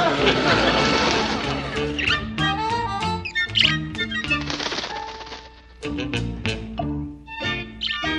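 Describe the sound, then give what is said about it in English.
A bird squawks and flaps around indoors, sounding as many harsh, jagged squawks and fluttering bursts that come in a busy, loud, uneven jumble. “No, quiet, till the bird settles down.”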